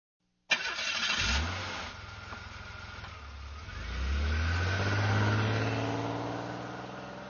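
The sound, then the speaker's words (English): A car engine starts with a quick crank and revs on a drive to a lake for camping, then settles to a lower hum before accelerating with a clearly rising engine pitch that later eases off. “We drive to the lake, and we set up camp.”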